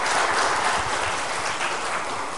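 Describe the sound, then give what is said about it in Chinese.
Applause from a church Bible study audience welcoming visiting brothers and sisters from the Seediq district church: dense, steady clapping of many hands that continues evenly throughout, with no voices. “我们来鼓掌欢迎一下来自赛德克区会的兄弟姐妹，站起来。”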